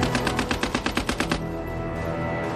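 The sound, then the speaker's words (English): Rapid automatic fire from a light, compact Lewis machine gun rated at 600 rounds per minute: a loud, fast string of many sharp shots in even rhythm, cutting off abruptly into a lingering wash of noise. “The Australians have one Lewis gun for every 10 men. A potent open warfare weapon that is light, compact, and can fire 600 rounds per minute.”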